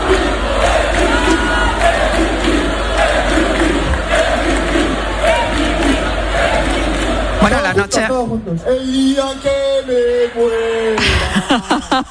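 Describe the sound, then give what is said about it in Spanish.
Football fans party and cheer at night in a fan zone in A Coruña, greeting their team's late arrival. A loud, dense crowd chants and shouts continuously, with many voices singing together. “Llegaron a las 3:00 de la mañana y estuvieron danzando y de fiesta hasta las 10, 11 de la mañana. Tenemos sonido de esa fiesta.”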